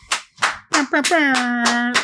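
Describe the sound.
Hands clapping in a steady, evenly spaced rhythm of sharp claps, with a voice calling out over the middle of the series.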